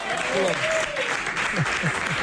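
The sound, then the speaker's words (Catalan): Applause greets a racing pigeon that has flown more than 15,000 kilometres. The clapping forms a steady, dense patter for about two seconds, and several voices talk and exclaim over it. “un aplaudiment”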